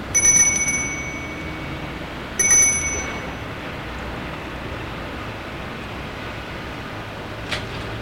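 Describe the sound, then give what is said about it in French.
A doorbell at a house rings twice, each a bright, high chime that fades gradually over a quiet, steady background. “Sonne à la maison.”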